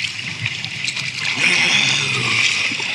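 Kayak paddle strokes splashing through water, a continuous hissing wash with brief splashes and trickles that grows slightly louder partway through.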